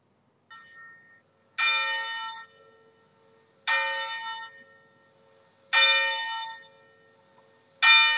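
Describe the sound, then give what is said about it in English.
A parish church bell rings out before Saturday morning Mass: a faint first stroke, then four loud, clanging strikes at a slow, even pace, each leaving a bright, humming tone that decays before the next. “many of you may never have heard our bell because it's only rung now before the Saturday morning Masses at 8 a.m. So let me try this.”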